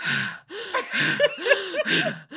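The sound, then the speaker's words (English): A voice imitates the heavy, panting breathing of someone on a home treadmill during a conference call: a run of breathy, gasping huffs with short gaps between them, alone and without words. “all this heavy breathing”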